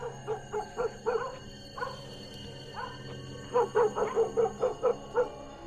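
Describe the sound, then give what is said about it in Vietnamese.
A dog barks toward the gate in short, yipping barks, scattered at first, then a quick run of about eight in a row, fairly loud and alone. “Con lu vẫn đang giấu cái mõm lên mà sủa ra cổng.”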